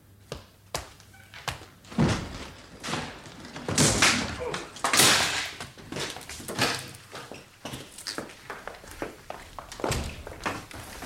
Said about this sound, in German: Dann schlagen Sie die Tür ein.